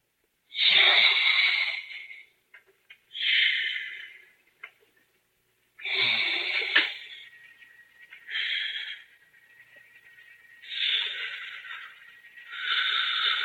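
Deep breathing of a surgical patient through an ether anaesthesia mask: several long, breathy hisses in a slow, regular rhythm with quiet gaps between them and no other sound.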